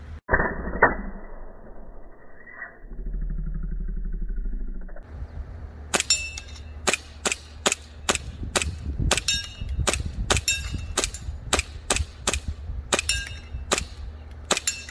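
A Novritsch airsoft pistol fires many sharp, snappy shots in a quick, fairly even rhythm. The shots follow a few seconds of low mechanical hum and a couple of earlier clicks.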